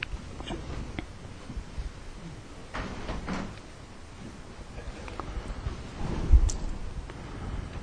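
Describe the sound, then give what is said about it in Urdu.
Windows are opened in a hot room: a few soft sliding scrapes and light knocks sound at moderate level, with a firmer thump near the end. “یہ کھڑکیاں کھولو نا, مجھے بڑی گرمی لگ رہی ہے, ادھر کی بھی کھول دو ذرا, ساری کھولو اوپر والی”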